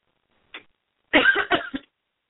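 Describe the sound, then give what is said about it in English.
Coughing from a dry throat: one faint short burst, then after a pause a louder cluster of three quick, rough coughs that trail off. “Had a little dry throat there.”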